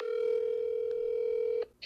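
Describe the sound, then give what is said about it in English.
A telephone dial tone plays as a call is being placed. It is one steady, loud hum that holds for about a second and a half, then cuts off, followed by a brief faint sound. “I'm going to call him back right now.”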